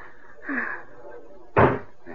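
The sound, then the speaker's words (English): A door opening: two short sounds, the second much louder and sharper than the first. “Here, this door opens.”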